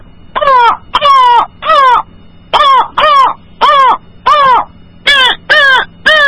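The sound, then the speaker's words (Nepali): Crow cawing: ten loud, harsh caws delivered in quick bursts of three, four and three, each call short and rasping with brief pauses between groups. “अनि फेरि कागको”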